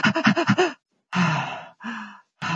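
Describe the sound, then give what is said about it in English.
A voice imitates a newborn's irregular breathing: a rapid run of short, quick breaths, then a pause and two longer, slower breaths, with another breath just beginning at the end. “and so they go in and out of this fast, slow breathing.”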